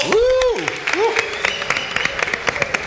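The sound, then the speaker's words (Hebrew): Audience applause for a radio editor at an event, a dense, steady patter of clapping that follows a short drawn-out voice at the start and carries on to the end. “תודה רבה, כפיים ליעקב”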